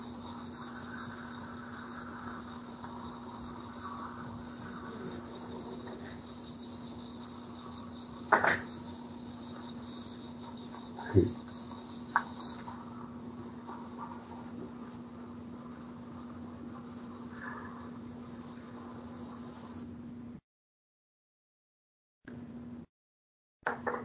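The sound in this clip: Crickets chirp in a steady, continuous trill with a few brief louder knocks partway through, then the sound cuts out and returns in short bursts near the end.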